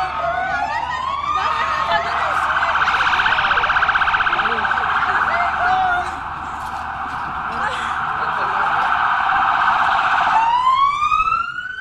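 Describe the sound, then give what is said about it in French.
An ambulance siren sounds as the vehicle arrives outside a hospital emergency department during an emergency drill. A loud, sustained wail sweeps upward at the start, holds steady, then rises again near the end. “Là, on a une ambulance qui vient d'arriver.”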